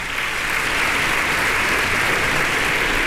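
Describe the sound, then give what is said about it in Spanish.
Audience applause in the concert hall of the Centro Cultural Tlacná, a loud, dense, continuous roar of clapping that swells slightly and then holds steady. “Compañeros también se unen a los aplausos del público reunido el día de hoy en la sala de conciertos del Centro Cultural Tlacná.”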